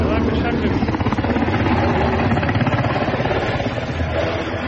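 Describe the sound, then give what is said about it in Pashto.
A helicopter flies over Kabul, thought to be carrying foreign diplomats and foreign forces to the airport. A loud, steady, rhythmic rotor thumping with a broad engine roar continues through the whole clip. “د کابل په فضا غنی هلیکوپټر ګرځي او ګمان کیږي چې د بیلابیلو سفارتونو بهرنی ډیپلوماټان او د غشان بهرنی ځواکونه د کابل هوایي ډګر ته انتقالوي.”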